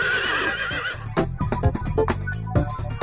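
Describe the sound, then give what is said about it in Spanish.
A horse neighs in a loud, shaky whinny that wavers up and down for about a second, followed by a series of sharp, irregular thumping knocks. “¿Cuál es el animal que tiene silla y no se puede sentar? El caballo.”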